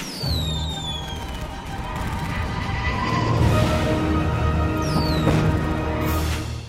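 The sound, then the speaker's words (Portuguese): A jingle for a 'streaming war' feature plays as a steady, dense wash of explosion sounds, with descending whistles like falling bombs near the start and again later, all continuous and without pause. “É coisa linda essa vinheta da guerra de streaming, muito bom.”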